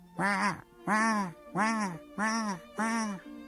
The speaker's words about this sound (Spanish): vio una bandada de gansos salvajes que volaban hacia el sur